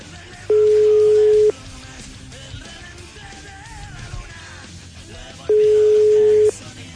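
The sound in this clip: Telephone tones from a call that is not connecting: two steady one-second beeps, spaced about four seconds apart, sounding loud over a low background of murmuring and faint voices.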